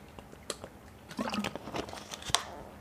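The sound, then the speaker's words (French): A person drinking water during a talk: a few soft sips and wet swallows, faint and irregular, with small mouth noises and no speech. “Alors une seconde, je bois un peu d'eau.”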